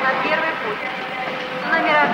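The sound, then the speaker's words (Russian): An express train pulls up to a station platform with a steady, broad rumbling roar throughout, and a voice speaks over it. “К перрону подходит скорый поезд.”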